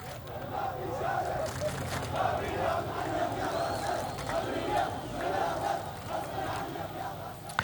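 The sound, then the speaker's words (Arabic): A crowd of protesters chants slogans calling for state sovereignty and for the government to take control of the province. Massed voices keep up a loud, steady, continuous chant throughout. “وردد المتظاهرون هتافات تدعو إلى بسط سيادة الدولة ومؤسساتها بما يضمن الأمن والاستقرار لجميع السكان.”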